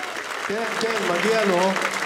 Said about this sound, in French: oui, on peut applaudir.